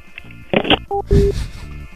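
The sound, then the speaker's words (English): A telephone being hung up at the end of a prank call: a brief clatter followed by a few short electronic beeps, heard alone without talk. “I just hang up. We don't need, like, a closing statement. Just hang up the phone.”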